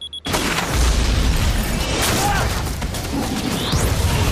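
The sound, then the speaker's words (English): A bomb detonates in an aircraft's cargo hold. The sudden loud blast gives way to a sustained, heavy roaring rumble with crackling debris-like noise that continues to the end. “As he fires at her, she slams the hatch shut and detonates the bomb.”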